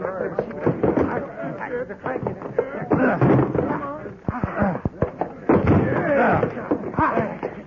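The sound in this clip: A locked door is forced open with a quick series of heavy thuds and cracking blows midway through. Excited voices talk over much of it.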